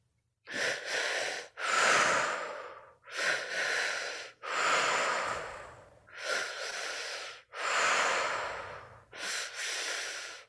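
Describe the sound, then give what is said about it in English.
Slow, deep breathing during a guided breathing exercise, drawn into the belly and chest and let out through the mouth. Seven long, airy breath sounds follow one another in a steady rhythm, clear and without talk. “into the belly, up into the chest, out through the mouth.”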